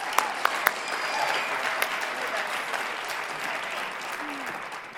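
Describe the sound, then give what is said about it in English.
A chapel audience at LCU applauds to welcome a speaker to the stage. A few sharp, separate claps lead into sustained, steady applause that tapers slightly toward the end. “So give her a warm LCU welcome. Everybody give it up for Mallory Rogers.”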